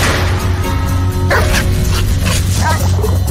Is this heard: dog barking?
yes